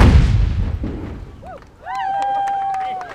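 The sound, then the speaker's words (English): Big naval guns fire from a ship in a parade of sail heading into port: one heavy booming blast that rolls and fades away, followed by sustained whistle-like tones. “Every ship with guns fires them along the way, and ours are by far the biggest and baddest. Stand by fire! Stand by fire! Fire!”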